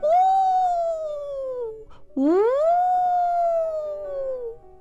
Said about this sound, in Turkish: Başını kaldırmış ve diğer çakallar gibi ulumuş.